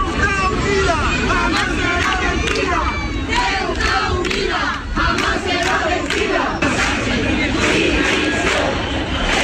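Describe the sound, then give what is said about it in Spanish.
Loud crowd chanting at a march in Ceuta calling for Pedro Sánchez's resignation: many voices shouting together in rhythmic bursts, continuous and forceful over a dense babble. “Una manifestación que pretendía dejar fuera los signos políticos, pero las imágenes están teñidas de banderas de España y el sonido es el de los cánticos que piden la dimisión de Pedro Sánchez”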